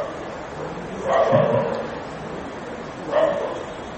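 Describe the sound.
A dog barks twice, two short, muffled woofs about two seconds apart, standing out from a quiet, steady background hiss.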